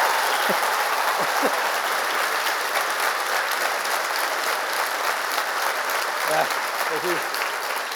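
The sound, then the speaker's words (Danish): Audience applause for a comedian at a live comedy show: a dense, steady roar of clapping holds for the whole stretch, with a few brief voices calling out above it. “kan vi ikke lige give en ekstra hånd til Jakob Trane? Helt seriøst.”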